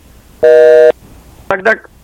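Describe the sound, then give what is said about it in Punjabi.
A flat, buzzing telephone tone sounds after a caller's line drops during a radio phone-in. It is one loud, steady burst, and a short tonal warble follows. “ਲੱਗਦਾ ਕਾਲ drop ਹੋ ਗਈ, ਚੱਲਦੇ ਹਾਂ next call ਵੱਲ।”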